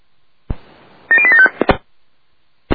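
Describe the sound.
Telephone keypad tones as code 875 is entered: a few quick, bright electronic beeps in a short cluster, framed by sharp clicks before and after, with no voices.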